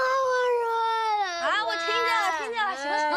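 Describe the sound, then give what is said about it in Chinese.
A child cries loudly with a high, wavering wail that breaks into shaky, sobbing cries partway through, without pause. “你哭什么呀？”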